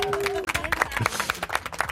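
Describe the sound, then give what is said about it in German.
Office employees applaud at a company celebration in a family business, marking a colleague's wedding with sparkling wine: quick, uneven bursts of clapping mixed with voices and chatter. “Vielleicht noch einen großen Applaus von allen Mitarbeitern.”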